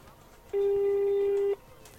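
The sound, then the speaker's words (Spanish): A telephone ringback tone on an outgoing call sounds as a single steady, mid-pitched buzz lasting about a second, with near-quiet before and after. “Estamos llamando, ¿eh?”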